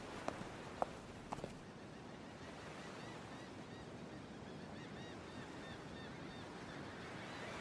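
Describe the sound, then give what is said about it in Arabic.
Waves wash steadily at a harbour as a ship arrives in port. The surf is soft and faint, with a few sharp knocks near the start. “يبدو أننا وصلنا إلى الميناء.”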